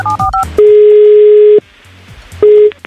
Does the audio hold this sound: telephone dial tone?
yes